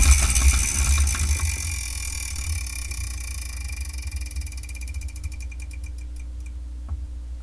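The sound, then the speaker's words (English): A prize wheel spins with a quick run of light ticking clicks that gradually slow and spread apart as it winds down. The ticking is fairly quiet and heard alone. “So let me spin the wheel for the next episode of the Spirekin Manga Review”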